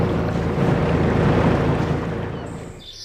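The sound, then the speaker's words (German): Steady low engine rumble of a fishing cutter leaving a large harbour on the North Sea at Cuxhaven, under a broad, loud wash of wind and water noise that eases slightly toward the end. “Und so klingt es, wenn ein Kutter den großen Hafen verlässt.”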